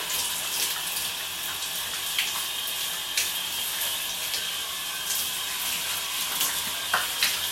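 Shower water runs steadily while someone rinses their body, a continuous bright hiss of spray with a few brief splashy spikes where the stream strikes skin; no talking.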